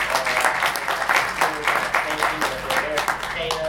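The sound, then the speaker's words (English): An audience applauds for Huey P. Newton with dense, steady clapping while a voice talks over it. “Huey P. Newton, give him a big hand clap.”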